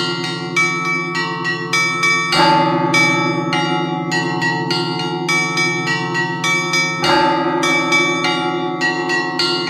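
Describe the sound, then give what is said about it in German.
Church bells ring in a bell tower in Finland, set swinging by a monk who works the mechanisms with his hands and feet. Many overlapping strikes of several bells fall in a repeating rhythm over a continuous humming resonance, with no voices. “ein Mönch ist da im Glockenturm und der spannt sich irgendwie in so ein Gestell ein und zieht mit Händen und Füßen da diese Mechanismen, um die Glocken in Bewegung zu setzen.”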